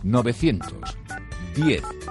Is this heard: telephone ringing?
yes